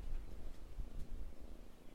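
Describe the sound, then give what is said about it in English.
A kitten purrs softly, a faint, low, continuous rumble that pulses in a steady rhythm. “I've got sweet purring little kitten.”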